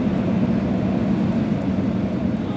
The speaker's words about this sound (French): faut vous préparer pour l'atterrissage Là, ça descend là.